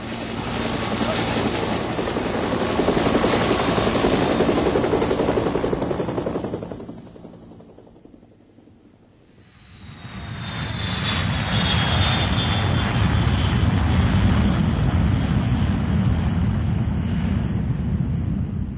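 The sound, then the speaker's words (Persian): An airplane climbing, its engines giving a loud, steady roar that fades briefly midway, then swells back up with a high whine riding on top. “هواپیما اوج میگیره.”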